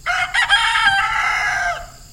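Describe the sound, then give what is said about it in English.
A rooster gives a single loud, drawn-out crow on a dairy farm outside Monroe, Wisconsin. The crow is strained and lasts over a second before trailing off, with nothing else around it. “A rooster is one of the few barnyard animals left at Weilemar Farms outside Monroe, Wisconsin.”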